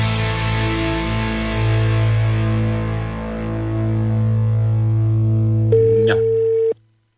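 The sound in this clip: A telephone call is dialed and connects: a steady buzzing line tone rich in harmonics drones for about six seconds, a higher beep joins near the end, and the sound then cuts off abruptly.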